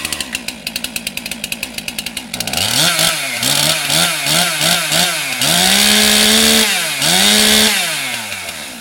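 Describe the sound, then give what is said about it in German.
A chainsaw carving a Mozart statue from a wooden log at the Bürgerbräu site in Würzburg: a rapid, regular idling putter, then loud revving that surges up and down in pitch, a long sustained high whine, and a fading finish. “Ein letztes Mal hallt die Motorsäge über das Bürgerbräugelände und dann steht er da. Ein Mozart für Würzburg, gesägt aus einem Holzstamm.”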